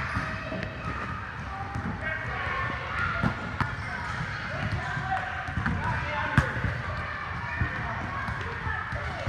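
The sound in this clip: A basketball bounces repeatedly during a game, with light, regular thumps of dribbling under steady background noise, along with talking voices and a faint crowd murmur.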